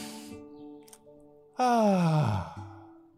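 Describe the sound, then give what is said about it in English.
A long, loud deep breath let out as a voiced sigh, its pitch falling as it fades, set over soft, steady sustained tones. “let's all take a nice deep breath.”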